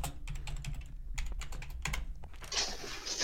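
Typing on a computer keyboard as an angry message is written: rapid, irregular key clicks, quiet and steady, with a slightly louder burst of keystrokes at the end and no voices.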